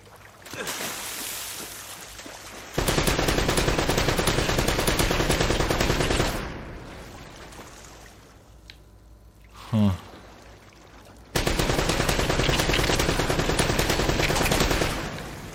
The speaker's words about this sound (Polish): On takimi seriami strzela.